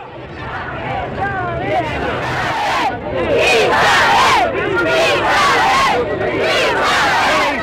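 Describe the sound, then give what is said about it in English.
Crowd of protesters in Buenos Aires chanting and shouting against the 1976 military coup that deposed President Isabel Perón. The roar is loud and sustained, with overlapping voices and high cries rising above it throughout. “That's the sound of protesters in Buenos Aires demonstrating against the military coup that deposed President Isabel Perón.”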